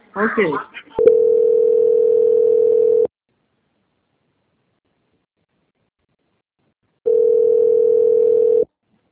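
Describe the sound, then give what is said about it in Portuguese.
Telephone line tone plays while a call is transferred: two long, steady mid-pitched tones of about two seconds each, separated by roughly four seconds of silence. A brief voice sounds just before the first tone. “peço que aguarde em linha, que vou transferir o contato para o controle de qualidade”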